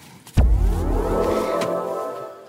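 A BMW hydrogen car is started: a sudden low thump at switch-on gives way to a steady, loud humming drone with faint whining tones that holds level to the end.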